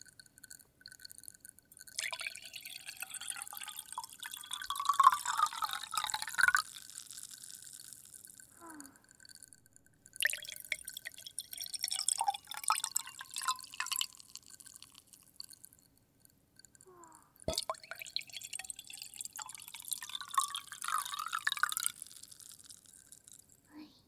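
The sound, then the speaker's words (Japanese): Carbonated water poured slowly from cup to cup, fizzing: three separate bursts of trickling, crackling bubbles, each lasting several seconds, with short quiet pauses between them. “コップからコップにゆっくり炭酸水を流し込んで、シュワシュワ。”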